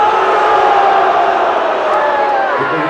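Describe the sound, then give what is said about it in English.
A political crowd reacts with mixed cheers and boos as candidates' names are called out. The sound is a sustained, loud roar of many voices that stays even throughout, with whoops rising above it. “I think there's some yays mixed with the boos.”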